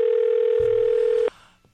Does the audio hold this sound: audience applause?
no